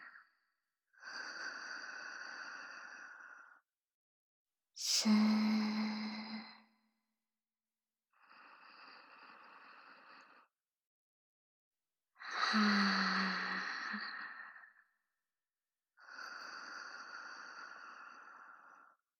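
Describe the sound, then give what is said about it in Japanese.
Slow, deep breaths during a guided breathing exercise, in and out. Five long, breathy inhales and exhales are separated by short silent pauses, and no one speaks. “また私に合わせて深呼吸をしてください。”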